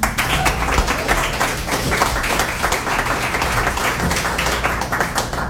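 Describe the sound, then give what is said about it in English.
Audience applause at a reading event: dense, steady clapping from many hands that stays even in loudness for the whole stretch, with no break. “Let's give Joseph another hand”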